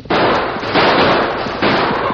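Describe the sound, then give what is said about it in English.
Gunshots fired on a trail: a few loud, harsh blasts with long noisy tails that run into one another, heard without talk. “Jake and Big Bill opened fire, then started down the trail at a fast pace.”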